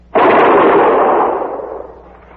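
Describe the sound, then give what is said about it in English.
A single loud rifle volley, fired on command, cracks out sharply and then trails off in a long, fading rumble with no voices. “Ready? Fire! Hit him again, Sergeant. Ready? Fire!”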